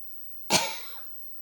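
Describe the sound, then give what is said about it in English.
A single short cough bursts out sharply, then fades over about half a second, alone against a quiet background. “so I start coughing”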